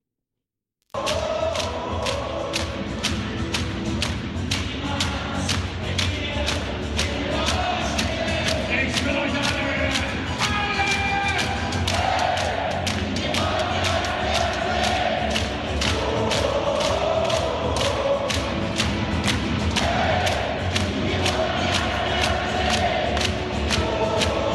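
A massive crowd roars from a fan stand of about 15,000 as a team makes its entrance into a new arena. Many steady, rhythmic thumps run beneath continuous loud cheering for the whole stretch.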